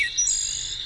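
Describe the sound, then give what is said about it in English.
A wood thrush sings a brief, faint phrase of clear, fluty whistled notes high in pitch, alone without voices. “That's the song of the wood thrush.”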